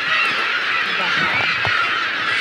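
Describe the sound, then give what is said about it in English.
Gulls calling all around at a breeding colony, on the ground and overhead: a dense, unbroken chorus of harsh, overlapping cries that stays loud throughout. “There are gulls everywhere, on the ground, hovering directly above us, soaring overhead.”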